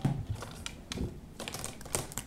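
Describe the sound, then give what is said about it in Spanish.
Small scissors snip through tape wrapped around a lid on a table at home, giving several faint, crisp clicks and snips with light crinkling between them. “Tiene una cinta, y entonces aquí nosotros tenemos una pequeña tijerita, una cinta que está alrededor de la tapa”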